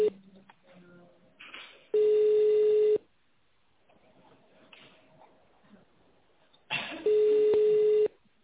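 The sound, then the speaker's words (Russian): Telephone ringing tone plays while a call is being transferred. Two steady, mid-pitched tones of about a second each sound roughly five seconds apart, with faint muffled sounds in between. “Сейчас, один момент, я вас соединю.”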